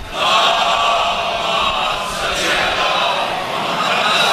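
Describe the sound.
A crowd at a religious gathering shouts a slogan loudly in unison, forming a dense, sustained roar of many voices that holds steady for several seconds.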